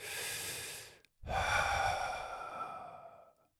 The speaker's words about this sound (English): So listen, my friends, take a deep breath.